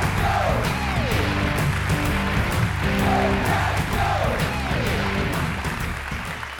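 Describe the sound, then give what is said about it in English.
Applause from a church audience at Life Church, greeting a former Packers kicker as he is welcomed on stage: a dense, steady wash of clapping that stays loud throughout, with whoops rising above it, and thins slightly near the end. “Yeah, I heard the claps, Republic of Texas.”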